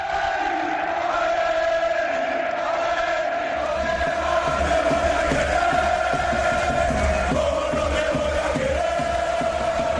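Football fans chant and cheer in a Spanish stadium, a dense, steady crowd roar with sustained sung tones running throughout. A deeper rumble joins partway through.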